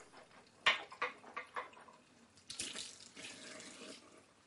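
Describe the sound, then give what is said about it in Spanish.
Water running from a bathroom sink tap as a man in pajamas rinses his mouth after brushing his teeth: a few short splashy bursts early on, then a steadier, faint flow of water to the end. “Deja el cepillo en el lavabo y se enjuaga la boca.”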